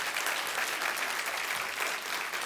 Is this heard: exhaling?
no